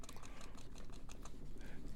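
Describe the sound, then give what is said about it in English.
Faint typing on a computer keyboard: many quick, irregular key clicks patter at a steady pace throughout. “I'm not Googling. I'm typing.”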